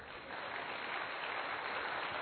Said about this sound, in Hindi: मुट्ठी खुल गई? खुल गई, अब बजाइए ताली।